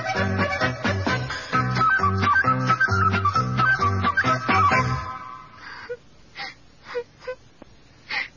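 A child cries after being teased on the way back from the river, sobbing in repeated tonal wailing pulses. These give way to a few breathy, gasping sobs near the end.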